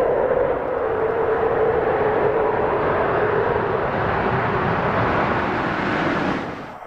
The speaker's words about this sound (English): This is Atlantis touching down 5:57 this morning. Landing here, down and locked.